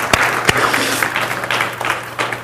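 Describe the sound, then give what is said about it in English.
Audience applause for a reader: a steady wash of many hands clapping with a few sharper, louder claps standing out, lasting about two and a half seconds over a low constant hum. “Let's give him a round of applause for reading through all that.”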